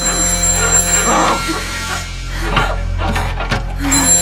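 A mobile phone rings in bed beside a man and a woman, a steady electronic ringtone with a thin high tone that keeps going throughout, with no talk.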